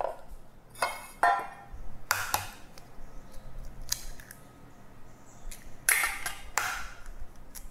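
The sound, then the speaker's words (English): Four eggs are cracked into a bowl for a gula melaka cake batter. A series of sharp, bright taps and cracks is spaced irregularly, with quiet handling sounds between them and no talk. “And I'm gonna need 4 eggs. Just gonna crack them all into a bowl.”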